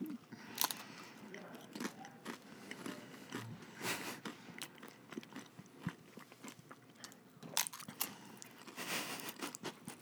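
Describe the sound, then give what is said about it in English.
Chewing and biting through the rest of a chewy taco shell: many irregular, moist crunches and mouth clicks follow one another without a break, at a moderate level throughout. “And now I'm going to... eat my the rest of my taco shell. It's so chewy.”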